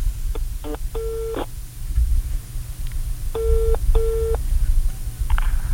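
Ringback tone of an outgoing telephone call: a few steady, mid-pitched electronic beeps, some closely paired, over a constant low background noise, with no talking.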